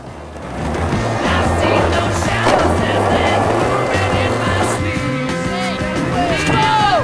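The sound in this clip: Skateboards roll loudly off makeshift ramps, giving a continuous rough roar of wheels with a few sharper clacks from boards landing.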